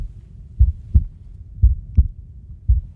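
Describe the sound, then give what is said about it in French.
Recorded human heartbeats fill a darkened heart-sound art installation on a Japanese island, sounding as low, muffled lub-dub thumps, three paired beats in a slow, steady rhythm with nothing else heard. “Des cœurs battent dans cette obscurité traversée parfois par la lumière”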